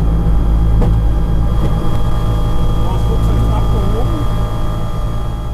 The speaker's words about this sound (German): Dann hört das dumpfe Rumpeln der Räder plötzlich auf und im Cockpit ist nur noch der Motor zu hören. Aber auch der ist laut genug.